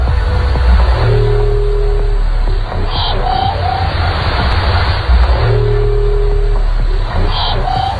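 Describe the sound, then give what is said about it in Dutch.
An underwater whale call recorded near the Mariana Trench: a low droning moan with a steady higher tone and brief metallic upper notes, sounded twice, over constant loud ocean hiss and rumble. “Het blijkt nu de roep van een walvissoort te zijn.”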